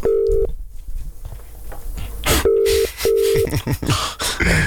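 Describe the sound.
A telephone ringing tone plays while a call waits to be answered, sounding as three short, steady mid-pitched tone bursts with brief gaps, mixed with other background sounds.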